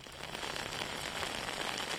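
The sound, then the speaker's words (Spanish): Steady rain falling with some intensity in Alzira, in the Ribera Alta area of Valencia, a continuous faint hiss with no voices. “vuelve a llover con cierta intensidad aquí en Alcira, en la comarca de la Ribera Alta”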